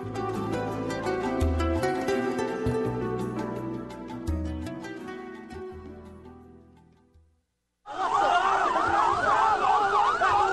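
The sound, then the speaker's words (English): Sirens of emergency crews arriving at a UN school in Jabalia refugee camp, Gaza, wail loudly in a steady rising-and-falling pattern. They come in after an earlier passage fades out into a short silence. “Sound behind us of emergency crews coming to the UN school in Jabalia yesterday, refugee camp in Gaza”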